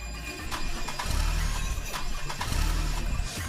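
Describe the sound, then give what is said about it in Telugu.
A jeep engine cranks but fails to start, giving a rough, churning low rumble with repeated pulses throughout, steady and fairly loud with no voices. “Jeep ఎక్కి start చేయగానే start అవడం లేదు.”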